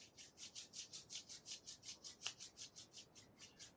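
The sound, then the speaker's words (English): Palms of the hands rubbed briskly together during a meditation to warm them: a faint, steady, rapid back-and-forth rasping with many even strokes. “And now bring your hand together and rub against each other, palms.”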